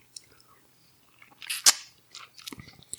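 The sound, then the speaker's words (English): Chewing and biting into a lemon slice: faint, soft mouth sounds and small crunches, with one sharper, louder bite burst in the middle and a few more chews afterward. “So this is lemon. So we've eaten an M-berry tablet. It's dissolved on our tongue. Lemon's supposed to be sweet now, right? Apparently. This is a lemon slice. Okay, here we go.”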